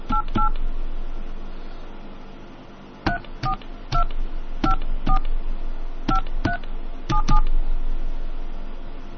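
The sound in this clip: Touch-tone telephone dialing: a quick pair of dual-tone beeps, a pause, then many more short keypad tones in an uneven rhythm, all over a steady low hum.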